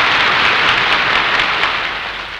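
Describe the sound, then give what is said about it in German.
Loud crowd applause fills the Sportpalast during a speech by Hitler. A dense, continuous wash of clapping stays strong and eases slightly toward the end. “Im Norden kämpft Finnland, ein wahres Heldenvolk. Applaus”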